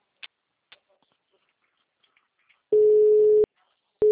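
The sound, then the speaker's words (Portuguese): A telephone busy tone sounds after a call is hung up: two steady mid-pitched beeps, the second cut off at the end, after a few faint clicks in near silence. “Ai, desligou.”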